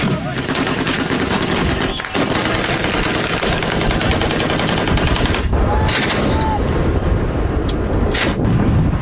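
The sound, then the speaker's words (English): Heavy gunfire as Saudi-backed Yemeni government forces fire at Houthi fighters: a loud, dense, unbroken barrage of overlapping shots and bursts that continues without pause for the whole stretch. “Video footage released by Yemeni government forces backed by Saudi Arabia of them firing at Iran-aligned Houthi fighters in the country verified by The Guardian.”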